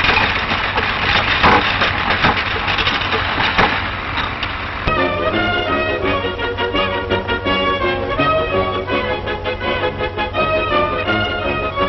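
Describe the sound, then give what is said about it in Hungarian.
A coin wrapping machine packing coins with a shaking mechanism gives a continuous loud mechanical rattle. Partway through, it shifts to a more even, rhythmic, tonal hum. “Ezután az érméket automatikusan csomagolják. A csomagolás rázó szerkezettel történik.”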